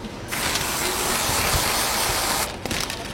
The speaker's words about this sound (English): It's like we'll shoot a little bit of whipped cream in there.